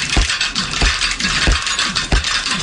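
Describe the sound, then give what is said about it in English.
Bicycle parts click and ratchet in a sound art piece built like a Rube Goldberg machine, with a steady mechanical whir broken by about four strong, evenly spaced ratchet clicks and lighter ticks between them. “He created a short video using bicycle parts in front of a black background. And when I phrase it like that, it doesn't necessarily seem like there's much to it, but there is. You've probably never heard bicycles making sounds like these.”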